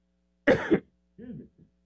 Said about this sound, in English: I'm supposed to push my button when I cough.